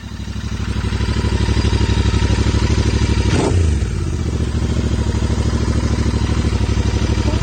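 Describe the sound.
A motorcycle engine runs with a steady, loud, rhythmic low chug, broken once by a sharp clank midway before the idle settles again.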